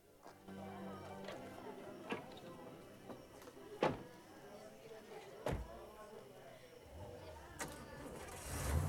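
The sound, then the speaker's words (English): A car starting up and driving off, with a low engine rumble running throughout and a few sharp thumps standing out above it, all fairly faint. “They get in and Jeffrey drives off.”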